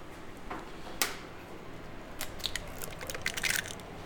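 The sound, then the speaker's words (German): Eggs being cracked for crepe batter: one sharp crack stands out, followed by several faint clicks and shell rustles over a low, steady background. “Eier aufschlagen? Dazu nehmen wir, genau, einfach Eier.”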